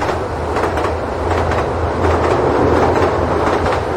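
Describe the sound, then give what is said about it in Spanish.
Train wagons clatter over rails in a loud, continuous rumble, with steady rhythmic clacking from the wheels running through the whole stretch. “el traqueteo del tren se hizo más violento”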